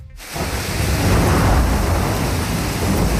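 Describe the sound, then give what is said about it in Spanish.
Heavy rain and hail pounding down during a storm in a city, a dense, roaring wash of noise that swells up quickly and stays loud and steady, with no voices. “Este es el sonido de la lluvia y el granizo a esta hora, tanto en la capital como en otros muchos puntos de la región.”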